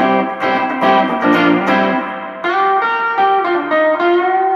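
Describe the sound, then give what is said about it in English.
An electric guitar plays through a J Rocket spring reverb pedal cranked all the way up. A few loud, sustained chords and notes are followed by a wet, splashy reverb tail, with no talking. “So that's J Rocket Spring. So we're going with Spring. That's a Spring okay. Reverb.”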